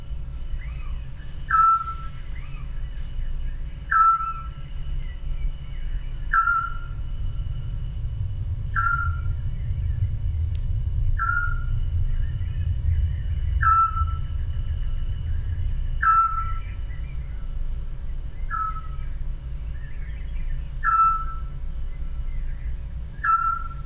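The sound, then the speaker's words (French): A family of scops owls calls in repeated short, clear whistled hoots at a steady mid pitch, about ten evenly spaced notes every couple of seconds over a low, continuous rumble. “on y suit pendant quelques minutes la vie d'une famille de petits ducs.”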